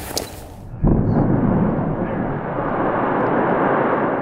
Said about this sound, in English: So that is the sound of a blast at the Mountain Pass Mine.